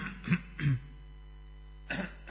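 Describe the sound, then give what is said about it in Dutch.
Someone clears their throat in a few short, low, rough bursts, two close together and then one more after a pause, with no talking in between. “Sorry, er zit iets in mijn keel.”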